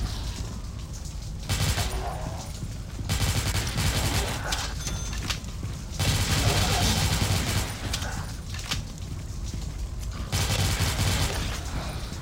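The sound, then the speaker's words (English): Heavy gunfire from a zombie shooter video game, arriving in several loud bursts of rapid shots separated by short quieter gaps. “Alright, zombies are coming and I'm shooting them in the face.”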